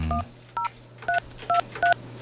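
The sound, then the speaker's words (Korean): Touch-tone telephone dialing of a call to a listener sounds as five crisp, evenly spaced beeps, each a short two-tone pitch, over a low steady hum. “직접 한번 전화를 걸어보도록 하겠습니다.”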